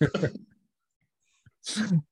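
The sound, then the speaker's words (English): A sharp, breathy sneeze comes near the end, after a brief voiced sound at the start and a short quiet gap. “Oh, bless you.”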